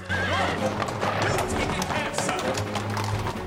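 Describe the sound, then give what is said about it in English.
Hooves of four dark horses pulling a general's carriage as it speeds around a corner: many quick clip-clop beats in a running rhythm, with a horse whinnying over the hoofbeats. “A pedestrian leaps back as the general's carriage rockets around a corner. It's drawn by four dark horses.”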